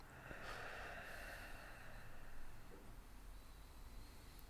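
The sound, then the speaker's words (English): A deep breath drawn in and let out slowly in a relaxation exercise, heard as a soft, airy rush that swells for a couple of seconds and then eases into quieter breathing. “So if we take a deep breath in and really slow out.”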